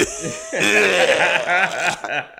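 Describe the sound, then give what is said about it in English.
A man's voice imitating a film character's raspy, gross cough, a short, rough, wet burst of vocal rasp that is loud and alone, with a chuckle-like edge. “Pizza the Hut coughs, and he's like,”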